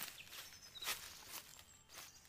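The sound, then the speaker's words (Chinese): Footsteps approach as a few soft, irregular steps, faint and heard alone without voices. “有脚步声传来，神木爷爷要出动了”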